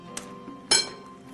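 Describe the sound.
Clinks against a bowl as three fresh eggs are handled over well-mashed potatoes: a light sharp tap, then a louder, brighter crack-like clink, with no talking.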